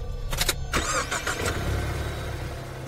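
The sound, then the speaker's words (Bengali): A car engine starting: a few short starter-motor cranking bursts, then the engine catches with a rough surge and settles into a steady, low idle rumble that continues to the end. “গাড়িতে ঢুকে start দিয়ে বেরিয়ে গেলাম”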